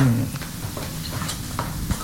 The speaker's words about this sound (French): Maintenant, vous mélangez le sucre glace et le beurre.